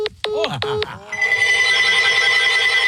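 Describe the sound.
A telephone rings in a few short, bright electronic trills during the first second, then a steady, dense sound carries on to the end, with talk also present.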